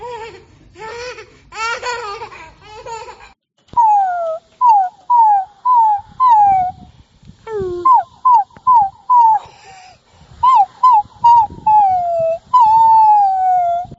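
A puppy whimpers and yelps in many short, high whines that often slide downward in pitch. The calls come in quick bursts with brief gaps, preceded by a busier stretch of mixed squeaky sounds.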